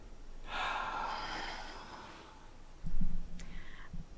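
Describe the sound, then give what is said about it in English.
A deep, comfortable breath taken on cue during a guided emotional freedom technique session: a long, breathy rush of air lasting over a second, followed a little later by a brief, lower burst. “Arise, and in your own time, take a comfortable breath.”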